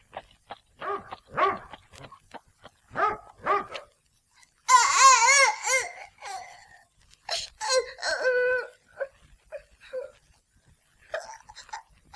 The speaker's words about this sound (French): As-tu fini de pleurer?